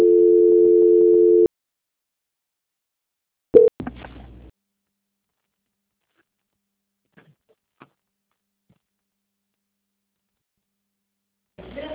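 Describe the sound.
A steady electronic telephone tone sounds for about a second and a half as a phone call is transferred, then gives way to a short burst of noise, near silence with faint clicks, and a brief sound at the end.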